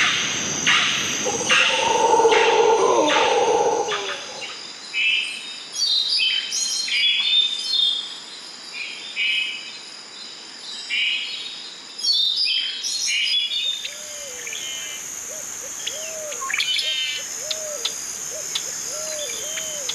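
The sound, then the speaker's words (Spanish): Costa Rican nature sounds: many bird chirps and calls, densest in the first seconds, over a steady high insect drone. A lower warbling bird call repeats near the end. “Disfrute un momento de los sonidos de la naturaleza costarricense.”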